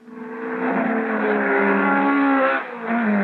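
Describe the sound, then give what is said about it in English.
High-performance car engines, such as Mustang, Thunderbird, Camaro and Barracuda, revving in a loud, sustained roar whose pitch climbs slightly, with a short dip near the end before it picks up again. “That's the sound of high-performance engines, Mustangs, Thunderbirds, Camaro, Barracuda, Sports, Super Sports, GTs, and many other cars have them.”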